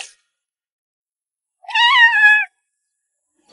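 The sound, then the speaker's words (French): A kitten meows once, a single clear, fairly loud, drawn-out tonal call that dips slightly at the end, with silence before and after. “Au moins, le chaton est content.”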